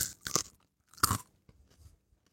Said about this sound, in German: Ist das eigentlich ein Fehler, wenn ich die jetzt besonders zerkaue? Oder ist das eigentlich der Sinn?